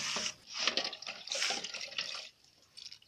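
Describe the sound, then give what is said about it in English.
Running water and soapy splashing as utensils are washed in a kitchen sink, coming in irregular bursts that pause briefly, stop after about two seconds, then return for a short moment at the end. “We wash utensils using soap. And she's going to wash all of them”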